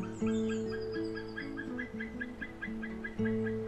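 A male bird with a pale head and yellow beak calls in a steady series of harmonic, honking notes that step up and down in pitch, moderately loud, with fainter regular chirps above.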